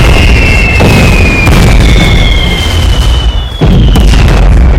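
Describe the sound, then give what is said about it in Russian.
Artillery shells burst close by in a wartime film battle scene. A loud, continuous rumbling roar carries high whistling tones that glide slightly downward, and a sharp blast cuts through near the end. “Огонь! Снаряды ложатся в нескольких метрах”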